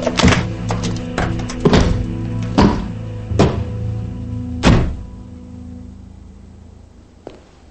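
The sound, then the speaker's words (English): A briefcase full of cash goes into a car trunk with many heavy thuds and knocks in an irregular rhythm, the loudest near the end, followed by a pause and a faint click. “Later, Thomas is putting a briefcase full of cash in the trunk of his car.”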